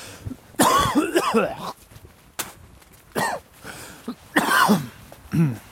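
Harsh coughing in several separate bouts, some with rough throat-clearing, breaking into loud bursts with short quiet gaps between them.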